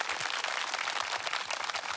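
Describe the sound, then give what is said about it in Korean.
Audience applause welcoming a guitarist onto a stage, heard as faint, dense clapping with a steady texture and slight flutters of individual claps. “기타리스트 정재웅님을 큰 박수로 모시겠습니다”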